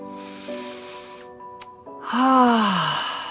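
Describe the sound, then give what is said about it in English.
Deep breath drawn in through the nose, then a louder, moaning exhale out through the mouth that slides down in pitch, done as a slow relaxation exercise over a steady tonal background. “I want you to take a deep breath in through your nose and exhale out through your mouth like this. You're going to release any tension or stress. Let's do it again.”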